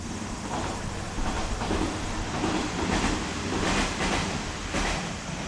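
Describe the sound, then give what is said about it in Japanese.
A two-car train arrives with a loud, steady rumble, and a few sharper clatters from the wheels on the rails rise above it. No voices are heard. “あ、電車来ますわ、ちょっと電車聞いといてください。”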